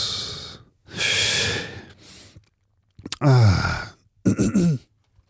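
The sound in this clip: Choking, snorting and rough gasping from someone who has just inhaled organic Japanese sencha green tea: a few harsh breathy bursts, then louder strained voiced snorts and groans, with short pauses between.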